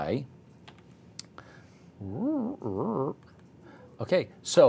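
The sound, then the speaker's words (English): Computer keyboard keys tap out a get-history command: a few sparse, sharp clicks while a person speaks. “if I wanted to get the history of things that I typed, you would type get history, okay?”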